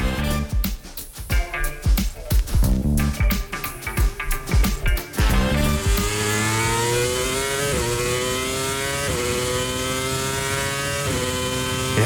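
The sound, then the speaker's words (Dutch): Screaming engine of a Formula 1 race car: choppy, stuttering bursts at first, then a loud sustained high whine that climbs in pitch and drops back several times with each gear change. “Veel mensen zullen dit geluid meteen herkennen. Het is het geluid van een gierende motor van een Formule 1 raceauto.”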